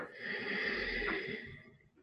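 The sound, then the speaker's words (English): A single slow inhale through the nose during a guided breathing exercise, a soft, steady airy rush lasting about two seconds before fading out. “Inhaling through the nose.”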